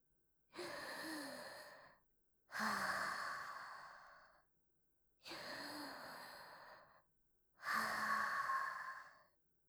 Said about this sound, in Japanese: 一応深呼吸しておこう。